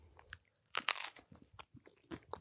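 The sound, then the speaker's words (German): Crunchy snack being chewed with wet smacking, heard as many irregular crisp crunches and bites that are quiet throughout, with no talking. “Boah, das wird so, die Leute werden so hassen, wie wir schmatzen, oder?”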